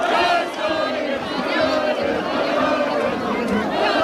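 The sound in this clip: Crowds celebrating across Spain after a World Cup semifinal win, with a loud, continuous roar of many voices shouting and cheering that swells and dips slightly throughout.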